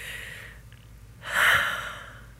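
One big breath taken by people, heard as a single broad, rushing breath that swells and then fades slowly, with no talk.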